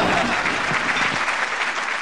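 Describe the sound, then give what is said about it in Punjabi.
Audience applause: dense, continuous clapping from many hands, steady and fairly loud throughout, with no talk over it. “ਮਾਰੋ ਤਾੜੀਆਂ ਜੇ ਗੱਲ ਜੱਚ ਗਈ ਏ, ਦਿਓ ਸ਼ਾਬਾਸ਼ ਵਾਹ ਵਾਹ ਕਰਕੇ”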